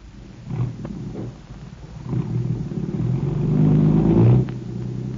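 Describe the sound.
A car engine pulls away in a low, steady rumble that builds in loudness toward the end, then eases off slightly. No voices are heard.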